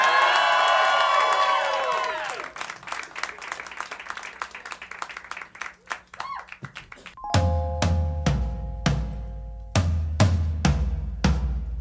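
A crowd cheers, whoops and applauds loudly to welcome a band onstage at a concert before thousands of people. The dense clapping and shouts fill the first seven seconds, then the band kicks in with punchy drum hits and sustained chords.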